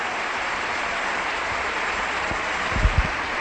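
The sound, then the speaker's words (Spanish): A church audience applauds during a sermon, a steady dense wash of clapping that holds evenly from start to finish, with a few low thumps near the end. “Un aplauso. Apláudale, dale un aplauso al Señor.”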